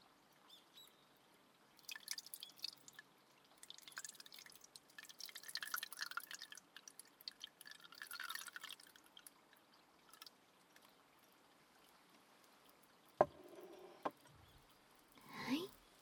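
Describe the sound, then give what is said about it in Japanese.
Steeped black tea is poured from a pot into a cup, giving a soft, uneven trickle that swells and fades over several seconds. A few brief, sharper knocks follow near the end. “ここで先ほどポットで蒸らしていたお紅茶をカップに注いで、”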